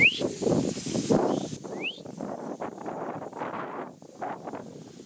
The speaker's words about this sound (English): Sound of the wind blowing through the trees.